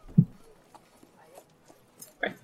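Horse hooves as horses are unhitched and led into stables: a few faint, irregular clip-clop knocks, with a louder thump at the start and another short burst near the end.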